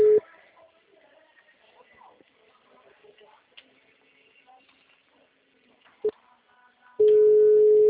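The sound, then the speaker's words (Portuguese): Telephone busy signal: a steady mid-pitched electronic tone cuts off at the start, gives way to faint background noise, then returns loud and unbroken for the final second. “O número discado não está atendendo. O número está ocupado.”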